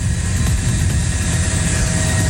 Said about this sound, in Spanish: van a poder ver la transmisión en vivo de este avión. Están las imágenes, el avión del que transporta Nicolás Maduro aterriza en Nueva York.